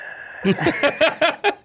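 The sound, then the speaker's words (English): Guttural, rasping breaths like a death rattle come as a rhythmic series of rough voiced gasps, fairly loud and heard alone after a brief silence. “That breath, that guttural breath. Oh, man. That's like a death rattle almost.”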